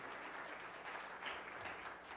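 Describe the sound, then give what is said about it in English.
Applause from a religious gathering, a continuous, even wash of many hands clapping at once, fairly faint and steady throughout with no voices over it. “Round of applause.”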